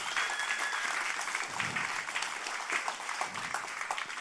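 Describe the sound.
An audience applauds to welcome a family, with dense, steady clapping that stays loud throughout.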